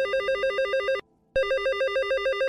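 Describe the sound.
A telephone rings with an incoming call: two bursts of a bright, rapidly warbling electronic trill, the first lasting about a second, then a brief silent gap, then the second, both loud and steady.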